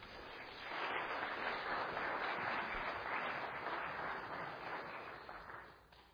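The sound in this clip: A church audience at Grace Church applauds a guest speaker, the clapping swelling quickly into a steady, dense patter before fading away toward the end.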